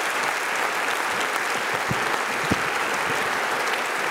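Enthusiastic audience applause welcomes a guest walking onto the stage at a service. The clapping is thick and steady throughout, with a few sharper individual claps standing out.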